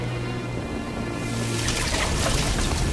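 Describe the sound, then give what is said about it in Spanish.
Liquid poured onto flames in a frying pan in a smoke-filled kitchen, a steady hiss that turns louder and brighter about halfway through, over a low tonal hum at the start. “Echa líquido sobre las llamas de la sartén avivándolas.”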